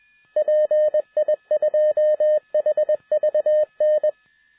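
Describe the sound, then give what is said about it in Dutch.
A radio repeater's identification beacon sounds a single steady mid-pitched tone keyed on and off in short and long Morse-like bursts, clear and alone with no talk. “Nou ja, de repeater PI2HVN meldt zich. Kon ik horen aan het RW-baken. Dus, ja, die heeft zich ingemeld,”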